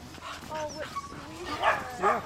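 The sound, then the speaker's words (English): Sled dogs bark, yip and yelp with excitement in a string of high, eager cries and short barks, some whining in between, fairly faint overall. “Each of the dogs barked and yipped and yelped their excitement”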